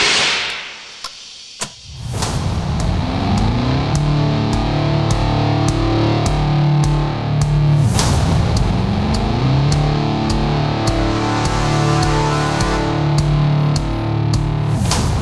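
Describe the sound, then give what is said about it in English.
Dark, distorted trailer music from the first Solo teaser: a heavy low droning bass with booming pulses and sharp percussive ticks, loud and steady after a quieter opening of about two seconds. “I love this teaser trailer music from the first Solo teaser. It's good, right?”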